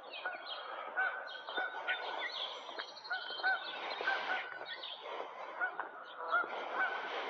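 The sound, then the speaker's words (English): Geese honk by a river in a steady, overlapping chorus, with many calls repeating throughout and no pause. “These are quite annoying geese.”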